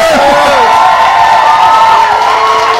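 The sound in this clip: Loud crowd cheering and shouting from an audience, with whoops and sustained shouted voices over a dense, steady roar that holds for about three seconds.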